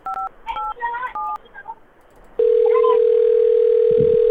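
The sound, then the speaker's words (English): Telephone keypad tones beep in a quick irregular series of short dual-pitched notes, then a loud, steady, unbroken dial tone holds to the end. “Let me dial his number for you.”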